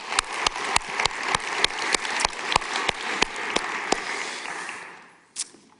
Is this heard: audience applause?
yes